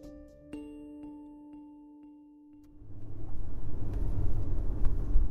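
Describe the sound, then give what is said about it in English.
Car driving through a wealthy Bay Area town: a few sustained chime-like tones ring first, then a loud, steady low road rumble swells in midway and carries on to the end. “It's late October, and I'm driving through the wealthy Bay Area enclave of Los Gatos with my podcast manager, Matt.”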